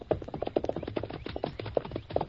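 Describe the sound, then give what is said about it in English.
Horses move along with a busy patter of hoofbeats, many quick, irregular clip-clopping taps that stay fairly faint and steady throughout, with no talking. “We'll leave the horses in that clump of trees over there. All right, let's go. Come on, Silver. Get them up, Scout.”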